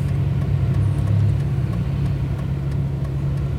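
Steady low engine and road rumble heard from inside a moving car, picked up by a recorder on the passenger seat, with a constant deep drone and no talking.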